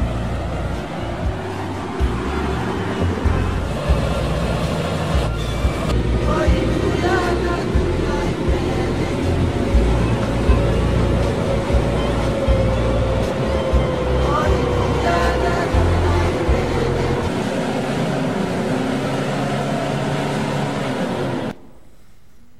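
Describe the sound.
Steady, loud rumble and rattle of a vehicle driving a rough, difficult road in Papua New Guinea leading to a tribal church planting location, the noise continuing unbroken before cutting off abruptly near the end.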